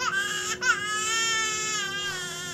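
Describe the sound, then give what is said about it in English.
A baby cries on a plane, a high, strained wail with a brief catch of breath, then a long, sustained cry that wavers and slowly fades. “They found their seats and Scarlett started crying.”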